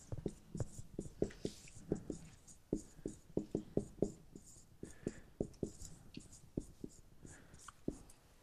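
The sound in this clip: Handwriting with a pen on paper, many short scratchy strokes in an irregular, busy rhythm, fairly soft and with no one talking.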